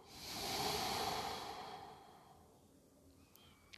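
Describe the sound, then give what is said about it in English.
A slow, soft breath is drawn in and released during a guided breathing meditation: one long, hushed, airy sound swells and fades over the first two seconds, then near silence follows. “And when your mind wanders, simply bring it back to the breath. Inhale. Exhale.”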